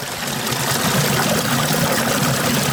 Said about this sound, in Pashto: تاسو به د اوبو ږغ اوري، غټ غټ کاڼې په دې خوړ کې پراته دي او اوبه ورباندې راتویږي، دا ږغ یې به تاسو اورئ.